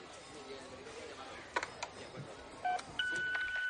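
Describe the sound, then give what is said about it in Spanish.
A call is dialed on a telephone in a thriller drama: a few faint clicks, then short electronic keypad beeps and a steadier held tone, all quiet. “Mira el reloj y hace una llamada de teléfono.”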